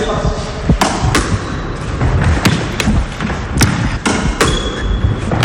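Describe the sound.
Crisp ball strikes from a racket-sport rally, with many sharp hits spaced irregularly over a steady, noisy background.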